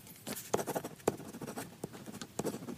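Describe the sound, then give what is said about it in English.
A pen scratches across paper while someone writes show prep, giving a faint, irregular run of short scratchy strokes and taps with no voices. “That's writing the show prep. That's only 6 seconds.”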